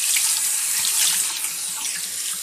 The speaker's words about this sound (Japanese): では、左側も流していきますね。